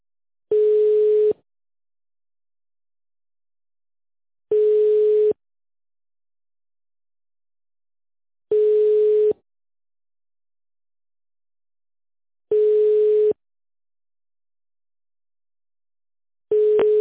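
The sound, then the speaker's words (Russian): A telephone ringback tone on a line calling a company: a steady single-pitch tone about a second long repeats at regular intervals of roughly four seconds, five times, the last cut off, with silence between. “Звонок в Леспромторг.”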